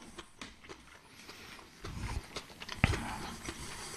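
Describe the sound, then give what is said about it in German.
Someone bites and chews a spring roll with crisp, crunchy mouth sounds that grow louder toward the end and peak in one sharp crunch. “Ich muss kurz meine Frühlingsrolle aufessen. Die ist sehr lecker.”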